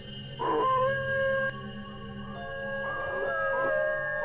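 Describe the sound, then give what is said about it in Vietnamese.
A dog howls long and mournfully outside in the lane, giving two drawn-out, wavering tonal howls separated by a short pause, with no voices present. “từ ngoài ngõ, một tiếng chó tru dài thê thảm làm tôi giật mình.”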